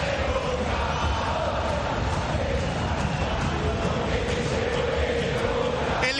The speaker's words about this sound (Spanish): Escuchá la bombonera.